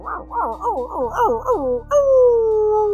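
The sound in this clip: A person imitates a dog's growl with a string of short, whiny, yelping vocal cries that bend up and down, followed by one longer, steady, drawn-out howl.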